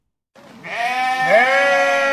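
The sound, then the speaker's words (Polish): A Cameroon sheep, one of a flock grazing and fertilising urban green areas, gives a single loud, drawn-out bleat after a brief silence, its quavering tone held steadily to the end. “Owce kameruńskie, które na części terenów zielonych pracują w naturalny sposób, kosząc i nawożąc trawę.”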